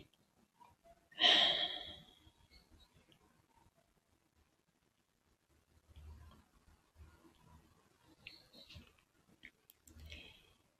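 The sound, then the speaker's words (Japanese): A deep breath in and out during a guided Ayurvedic breathing exercise: one loud, airy inhalation, followed after a pause by several softer, uneven breath sounds, with no talk. “目を開いたらもう一つ大きく息を吸います。しっかり吐いて。”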